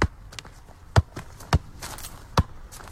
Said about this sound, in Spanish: Hace toques de balón.